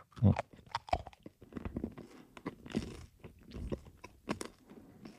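Crunchy biting and chewing while tasting food with sunflower or linseed oil from a farm setting. A few sharp crunches come early, then softer, irregular chewing continues throughout at a low level.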